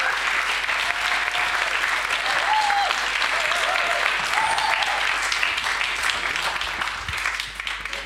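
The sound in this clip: Church audience applause welcoming three panel speakers onto the stage, a continuous, even roar of many hands clapping that holds strong for several seconds and eases slightly at the end.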